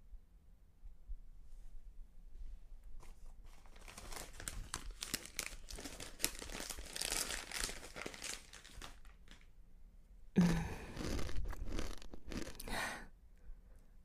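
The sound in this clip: Snack packaging crinkles as it is taken out of a bag: many irregular crackles and rustles, with a louder burst of crinkling late on. No voices are heard.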